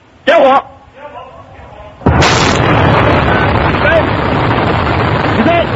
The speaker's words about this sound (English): The unmanned capsule called Tiangong-1, or Heavenly Palace, blasted off from a launch site in the Gobi Desert in western China.